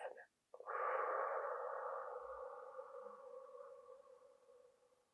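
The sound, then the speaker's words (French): A long, slow breath out during a sophrology relaxation exercise. After a brief pause, the soft, airy exhalation swells quickly, then fades gradually over several seconds, quiet and alone. “On y va, on inspire et on souffle.”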